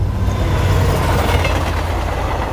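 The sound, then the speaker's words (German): A regional train on the Neisse valley line crossing a river between Zittau and Görlitz, heard as a loud, steady rumble of wheels rolling on rails with no voices. “Die Neiße-Talbahn. Sie überquert den Fluss zwischen Zittau und Görlitz viermal.”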